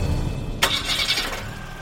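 A camper van engine starting: a short sharp cranking burst catches, then the motor settles into a steady low running rumble.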